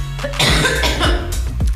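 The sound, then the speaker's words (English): Harsh, throaty coughing from a person sick with a cold: a few loud, rough bursts in quick succession, heard on their own with no talking. “Sorry. I'm still sick, like I said. So this cough is still there.”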